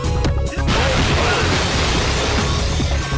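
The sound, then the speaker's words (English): Crashing, rumbling impact noise from a fighting video game finisher, as the beaten opponent is smashed out of the arena through its walls. The noise is dense, loud and continuous, with scattered sharp hits throughout. “And when you win a fight, you can smash them out of the arena through the walls in what is one of, I think, the most satisfying finishers that any fighting game has ever had. And it sounds like this.”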